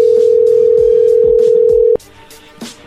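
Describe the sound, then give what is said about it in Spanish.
A telephone dial tone hums as a steady, loud, unbroken note for about two seconds, then cuts off abruptly, leaving faint background noise. “¿Ya colgó? Ya colgó, ya colgó. A ver, márcale de nuevo.”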